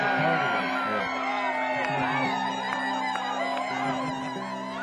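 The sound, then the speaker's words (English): A rowdy crowd whooping and cheering, with voices shouting and calling out over a steady background of crowd noise. “These guys are out cheering you guys over here.”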